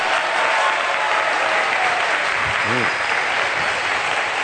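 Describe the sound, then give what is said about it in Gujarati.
An audience gives loud applause at a Vachanamrut centenary festival gathering. The clapping is dense and steady throughout at an even volume, with a brief voice heard partway through. “જોરદાર તાળી.”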